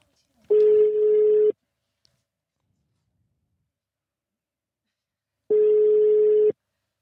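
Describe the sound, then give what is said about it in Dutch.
An outgoing telephone call's ringback tone: two steady, evenly pitched tones, each about a second long, separated by a long silent gap. “Ga hem bellen. Kijken of ik het goede nummer heb ingetoetst.”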